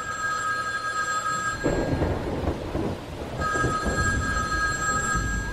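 A home landline telephone rings in two long bursts of bright, trilling bell tone with a pause between them, over steady rain, with a low rumble of thunder filling the gap.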